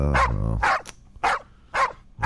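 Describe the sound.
Dogs bark in the mountains with four loud, sharp barks in an uneven rhythm, separated by short quiet gaps.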